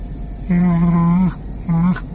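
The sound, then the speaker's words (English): Chewbacca the Wookiee from Star Wars grunting and moaning: a long, low, buzzing growl, then a pause and a second, shorter growl at the same pitch. “Chewbacca grunted and moaned.”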